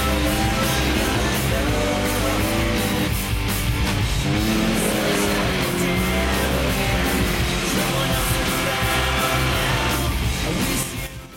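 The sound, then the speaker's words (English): Motorized snowmobiles carry helmeted riders along a sunny forest path, their engines a dense, continuous loud roar that holds steady throughout before easing off at the very end. “The gang, wearing helmets, are now driving motorized snowmobiles along a path through a forest.”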